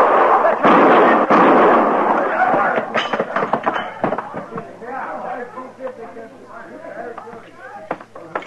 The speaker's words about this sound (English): All right, put that gun away, Peek. He killed Baird, Marshal. He was going to kill me. You shoot him again and I'll kill you.